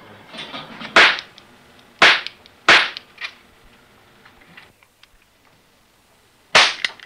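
Toy gun firing: sharp cracking bangs, four loud ones and a softer fifth, spaced irregularly with a long quiet gap before the last shot.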